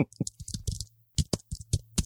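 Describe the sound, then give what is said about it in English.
Computer keyboard typing added as a sound effect: a run of sharp, irregular clicks in two bursts, busy at first, then a sparser handful of louder taps, over a low steady hum. “should put in like a keyboard effect”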